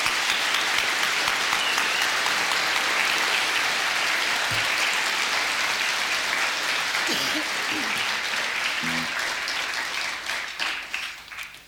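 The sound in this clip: Sustained applause from an audience welcoming a performer from Denmark, many hands clapping steadily and fairly loud before thinning out and fading over the last couple of seconds.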